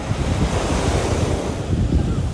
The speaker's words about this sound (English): Sitting here by the ocean today